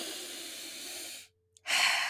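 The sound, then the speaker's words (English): A deep, exaggerated breath, heard as a long soft airy hiss that stops in a moment of near silence before a louder, forceful rush of breath. “close your eyes and take a deep exaggerated breath”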